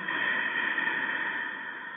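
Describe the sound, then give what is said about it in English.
Deep, Darth Vader-style breathing made by a seated person during a breathing exercise: a single steady, raspy, hissing breath that holds an even, fairly soft level throughout, with no talk over it. “breathe deeply in, and breathe out, and make that Darth Vader breath”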